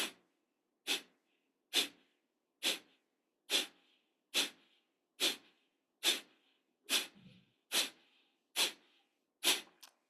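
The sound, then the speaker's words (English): Gentle breath pumps during a breathing exercise: many short, sharp nasal puffs of air, evenly spaced at about one per second, each rising quickly and fading before the next. Quiet pauses lie between them. “And now 10 gentle pumps after this breath. Inhale. And begin.”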